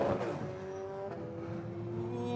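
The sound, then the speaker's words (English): A V8 sports car engine runs during qualifying on the Long Beach street circuit, a sustained droning hum with a louder burst at the start, holding steady as the car waits to turn. “He's got the engine running. Waiting for the flick turn.”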